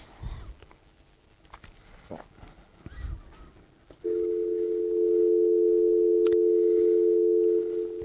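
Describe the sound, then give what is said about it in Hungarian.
A telephone dial tone sounds while a call is being placed: a steady, loud, continuous hum starts halfway through after a few faint taps and clicks. “Jó, akkor én most hívom őt.”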